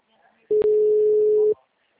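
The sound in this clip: A telephone ringback signal plays during a call: one steady, mid-pitched tone lasting about a second, broken by a short click near its start, then silence.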